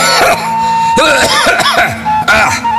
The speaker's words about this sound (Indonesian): Punten batuk.